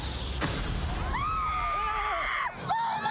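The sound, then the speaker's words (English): A bomb hidden in a wedding cake explodes with a sharp, loud bang, followed by high, wavering screams and a second short burst near the end. “There's a bomb in the cake. Don't worry. I used to be a bomb guy. Stand back!”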